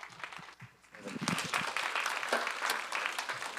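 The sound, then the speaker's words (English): Audience applause at a church service welcomes a speaker to the stage: a dense, steady patter of many clapping hands that swells after a quieter first second and holds. “So can we put our hands together and welcome Nick to the stage?”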